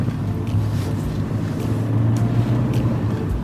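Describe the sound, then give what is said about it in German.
A car drives off along a country road, a steady low engine rumble with some wind noise and no talk. “Das heißt, wir fahren über die L412. Richtung Villeracher Talsenke. Auf geht's.”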